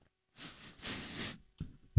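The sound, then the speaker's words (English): A person sniffs in two short, breathy pulls, faint and alone, followed by a brief low thump right at the end. “No, I'm sniffing.”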